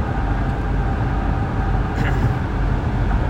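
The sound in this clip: Car interior road noise while driving: a constant low rumble with a broad, even hiss, unbroken and fairly loud throughout.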